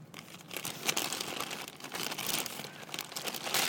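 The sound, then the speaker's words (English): A paper towel is taken and crinkled by hand, making a steady, dense rustle of many small crackles and crunches. The crinkling runs through the whole stretch with slight swells in loudness, with no voices. “I'm going to get one of those paper towels.”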